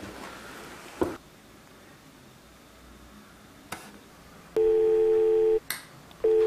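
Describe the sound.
Ringback tone of an outgoing telephone call: after a couple of faint line clicks, a steady mid-pitched electronic tone sounds for about a second, falls silent, then starts again at the very end.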